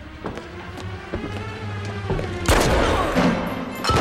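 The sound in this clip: Gunshots fired in a film murder scene: a few sharp, isolated cracks, then a louder and denser burst of noisy blasts that carries on to the end.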